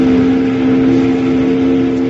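A steamboat whistle sounds as someone pulls the whistle cord. It is a steady, sustained low tone that does not change for the whole clip.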